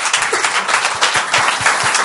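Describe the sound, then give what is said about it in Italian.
Audience applause at a live evening event, with dense, steady clapping from many hands that fills the whole stretch at a fairly loud, even level, with no voices over it. “22 dicembre, un applauso di nuovo.”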